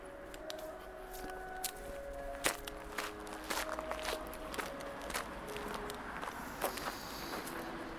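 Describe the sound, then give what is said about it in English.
Footsteps walking back through a park: faint, irregular steps with soft crunches and taps over a steady outdoor background hiss, continuing throughout. “So I walk back to the sign at the beginning of the park.”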